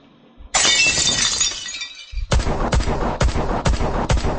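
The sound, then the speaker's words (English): Gunshots fired at a window: a loud crash of shattering glass rings on for over a second, then five sharp, evenly spaced shots crack out in quick succession, each loud and abrupt. “You waste your bullets, gentlemen.”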